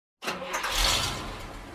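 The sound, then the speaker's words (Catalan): A truck engine starts abruptly out of silence, catching with a burst and then settling into a steady, rumbling run. “Mentrestant, els pallassos acaben de preparar el camió i comencen el seu viatge.”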